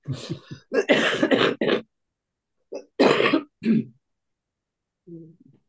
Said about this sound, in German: Nein, immer noch mein alter Husten.